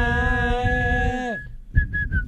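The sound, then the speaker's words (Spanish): Whistled football stadium chant: a long, steady, tone-rich note holds and then cuts off, followed by a few short whistled notes at a similar pitch. “¿puedo hacer uno de cancha, una canción de cancha, pero con silbido?”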